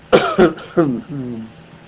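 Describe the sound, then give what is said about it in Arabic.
A man coughs a few times in short, sharp bursts during a question-and-answer session on Islamic jurisprudence, each rough hack followed by a lower, voiced throat sound that trails off. “دعني أسعل قليلا.”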